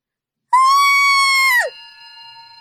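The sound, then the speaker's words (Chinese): A man screams in terror in one long, high-pitched cry that holds steady and then breaks and drops sharply at the end. A faint, steady tone lingers afterward. “他笑着笑着脸色骤变，僵了那么一两秒，没命一样的尖叫起来。”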